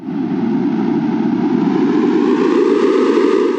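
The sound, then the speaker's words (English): A synthesized sonification of ocean gas release into the air sounds as a steady, dense rushing noise, loud and even, growing slightly brighter toward the end, with no voices. “The more gas that is released into the air, the more the sound will become louder and brighter like this.”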